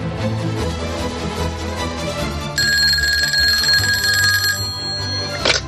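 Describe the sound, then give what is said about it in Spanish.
A telephone bell rings for the first telephone call, from Fregenal de la Sierra in Badajoz to Seville: one sustained, bright ringing burst of about two seconds over a low background hum, ending with a brief click. “Entonces se realizó la primera llamada telefónica. Y mira, se hizo desde un pueblo de Badajoz, que es Fregenal de la Sierra, y la llamada iba hasta Sevilla.”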